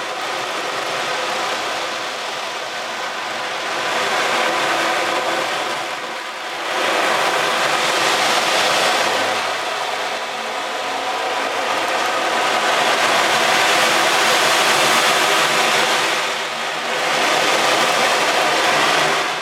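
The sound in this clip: Balls roll and bounce inside a drum, imitating the sea: a broad, loud hissing rush that swells and ebbs in long waves, with no speech.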